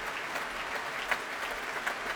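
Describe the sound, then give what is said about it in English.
Applause fills a concert hall at the end of an opera, a dense, even wash of many hands clapping, moderately loud and sustained without a break. “I think the applause will go on for quite some time.”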